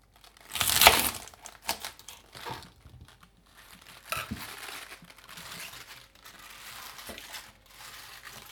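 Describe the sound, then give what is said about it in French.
Knife cutting off the soil-filled base of a whole unwashed chard, with one loud, crisp crunch near the start followed by several softer crunching and rustling sounds. “on prend toute la blette entière avant de la laver et on coupe la, base qui est souvent remplie de terre.”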